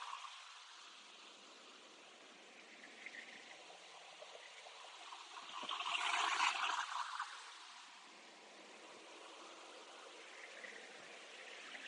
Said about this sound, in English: Some massive waves coming.